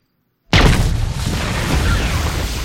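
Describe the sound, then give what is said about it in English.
An explosion rocks a dig site in China. After a moment of silence comes a sudden loud boom, then a dense, sustained roar and rumble that holds steady to the end. “In China, an explosion rocks the dig site.”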